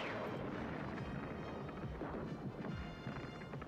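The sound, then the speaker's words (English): Heavy gunfire and blasts in a Transformers video game firefight: a dense, loud roar of overlapping shots and booms that runs without a break from start to finish. “Who's shooting? Start firing!”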